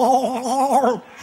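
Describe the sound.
A voice imitates someone gargling while sinking in water, producing a wobbling, bubbly vocal tone that warbles for about a second before trailing off.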